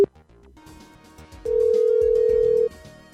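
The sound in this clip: A telephone call rings out to a grocery store: one long, steady, loud tone lasting just over a second, with music playing underneath throughout.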